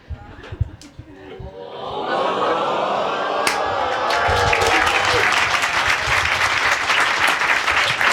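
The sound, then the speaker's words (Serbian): A studio audience bursts into applause and cheering on cue after a few scattered thumps, building within two seconds into loud, sustained clapping with whoops. “vi sad slobodno kad ja udarim neka spontana euforija ako nije problem. Urnebesan aplauz. Može ono dok je, čekajte ono kao na utakmicama ono o, i onda euforija.”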